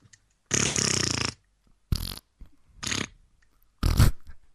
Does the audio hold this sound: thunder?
no